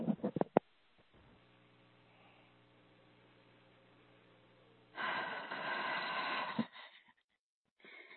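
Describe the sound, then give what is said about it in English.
An audience takes a deep breath together: a faint steady hum, then a rushing breath of about a second and a half, followed by near silence. “go ahead and everyone take a deep breath.”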